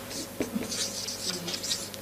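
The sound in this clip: Handwriting scratches steadily as someone writes something down by hand, a continuous run of short, dry, scratchy pen strokes lasting about two seconds, with a faint low hum beneath.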